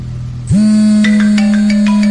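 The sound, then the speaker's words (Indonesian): A mobile phone rings at night, its loud ringtone swelling up sharply and then holding a steady tone, with a run of bright chiming notes pulsing on top. “kira-kira jam 1 lebih hampir setengah 2, handphoneku berdering. Siapa sih malam-malam gini telepon?”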